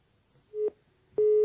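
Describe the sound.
Telephone busy tone after a phone-in caller's line is cut off: two steady low-pitched beeps separated by a short gap, the second running to the end.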